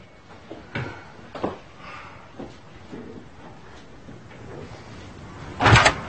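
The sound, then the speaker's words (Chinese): A door is pulled shut indoors at home: a few faint clunks and rustles come first, then one loud, sharp bang of the door closing near the end. No voices are heard. “请帮我把门关上吧。”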